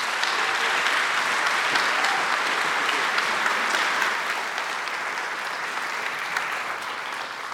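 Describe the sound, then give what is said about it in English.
An audience applauds to welcome a speaker: dense, steady clapping that holds strong for about four seconds, then eases slightly but carries on to the end. “So would you give a warm Bridgetown welcome to Nijay.”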